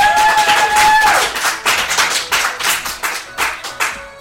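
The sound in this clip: Applause from a live studio audience: a steady burst of clapping that follows a brief held musical tone, then settles into loud, pulsing waves of clapping.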